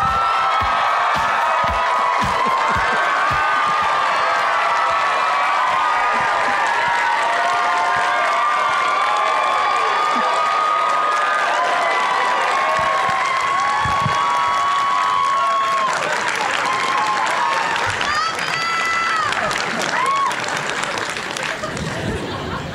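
A university audience at Chapman University applauds and cheers as it welcomes actor Brendan Fraser. Loud, sustained clapping with whoops and crowd chatter runs for over twenty seconds.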